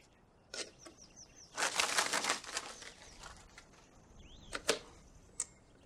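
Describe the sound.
A bird in a cartoon flaps its wings in a loud burst of dry, rapid fluttering, with a few sharp clicks before and after it and a brief chirp in between.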